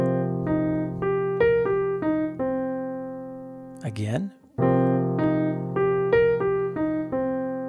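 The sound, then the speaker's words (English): Jazz piano arpeggio in pairs of eighth notes, stepping up and then back down, played twice with a short spoken word between the two passes; bright, evenly articulated notes. “So now our ascending and descending arpeggio sounds like this.”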